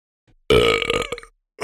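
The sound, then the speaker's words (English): A man lets out one loud, long belch after dinner, a deep, croaky, voiced rumble lasting under a second that ends abruptly into silence. “I wonder what the world record for a belch is.”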